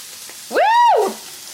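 Onions sizzling in a frying pan, a faint steady frying hiss throughout, broken in the middle by a loud half-second tone that rises and then falls in pitch.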